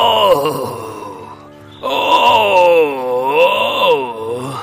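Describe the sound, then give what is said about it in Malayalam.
A voice imitates a lion crying in pain, with two drawn-out wavering wails. The first is shorter and drops away, and the second is longer and louder, bending up and down in pitch. “അവിടെ ഒരു സിംഹം വേദന കൊണ്ട് കരയുകയായിരുന്നു”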